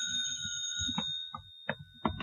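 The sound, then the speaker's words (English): A telephone rings with a sustained, bright bell tone that holds through the whole clip, joined by a few short, louder bursts over a low rumble. “the telephone rang”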